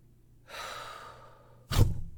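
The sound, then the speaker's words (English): A person draws one long breath for about a second, then lets it out in a short, forceful gust that is louder and lower. No one speaks. “Now, let me take a breath first. And when I've fully exhaled”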